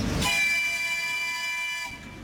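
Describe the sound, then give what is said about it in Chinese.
A small children's-park train in Harbin sounds its whistle as it leaves the platform: one sustained, chord-like horn blast of about a second and a half, loud and alone, cutting off cleanly. “汽笛又一次鸣响，小火车缓缓驶出站台。”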